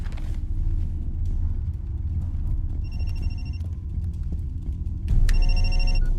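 A telephone rings with an incoming call: two bursts of bright, trilling electronic ringing over a constant low rumble, the second burst louder than the first.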